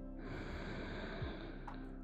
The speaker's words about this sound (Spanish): Inhala profundamente